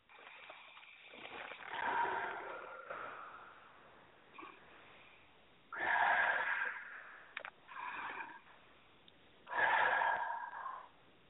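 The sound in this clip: Slow deep breaths during a guided relaxation exercise: three long, soft rushes of air swell and fade at a steady, unhurried pace, with faint breathing in between.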